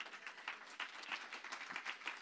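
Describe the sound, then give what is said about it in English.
A church audience clapping their hands in honour of their pastor, a faint, dense patter of many hands that rises and falls in uneven waves, with no talk. “Clap your hands for your man of God.”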